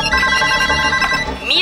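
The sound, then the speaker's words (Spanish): An old telephone bell ringing as a sound effect: a rapid, bright metallic trill that holds steady through the short clip. “1876, Graham Bell inventa el teléfono.”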